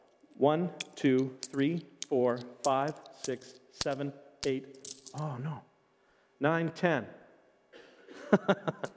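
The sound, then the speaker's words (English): Coins are counted out by hand, with a few sharp metallic clinks between the words of a voice that counts and talks over them. “I have in my hand some coins. Okay, we'll count them out.”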